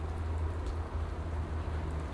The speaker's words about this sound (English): but actually the rain has come back on again